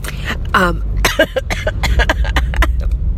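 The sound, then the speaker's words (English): A person clears their throat and coughs to clear seawater from it, making a run of many short, rough, gravelly bursts at an uneven rhythm. “excuse me. That's probably a little of the seawater left in my throat.”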